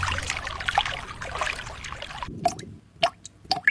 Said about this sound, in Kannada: ನಲ್ಲಿಯಲ್ಲಿ ನೀರು ಸೋರುವುದು